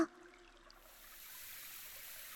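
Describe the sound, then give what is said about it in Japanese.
A running shower being turned on. A soft, steady hiss of spray swells in over about the first second, then continues evenly and faintly with no talking. “あ、シャワー出すんですね。”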